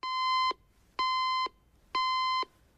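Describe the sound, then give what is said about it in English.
An alarm clock on a bedside cabinet beeps three times in an even rhythm, each beep a bright, steady half-second tone separated by short gaps. “The woman reaches out to a bedside cabinet and switches off the alarm.”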